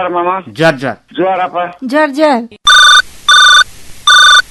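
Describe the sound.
An incoming call to a radio show rings on a telephone in three loud, even electronic trills, each separated by a short gap and following a voice that speaks just before.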